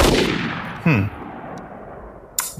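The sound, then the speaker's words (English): A rifle shot fired while aiming with an old vernier sight: a loud, sharp report with a long decaying tail, followed near the end by a second, briefer sharp crack. “I'm going to line up my old vernier sight here. Well, let me take another shot.”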